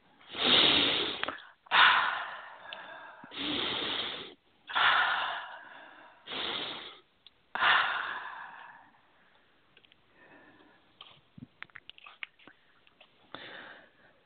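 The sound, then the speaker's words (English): Three deep breaths are taken, each a long, airy inhale followed by an exhale, making six loud breathy pulses in steady succession. Quieter faint breathing and small sounds follow. “take three nice deep breaths”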